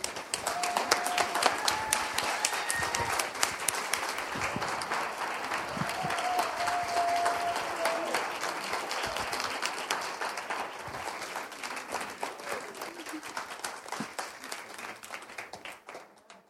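An audience applauds to welcome guests, with dense, steady clapping that carries on throughout and thins slightly toward the end.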